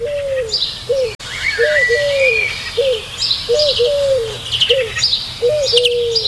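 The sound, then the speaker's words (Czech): Repeated bird calls heard before dawn: a series of short, downward-curving mid-pitched hoots recur steadily, about two per second, over higher scattered chirps and twittering from other birds and a low background hum. “Tenhle zvuk tohohle ptáka mě děsí.”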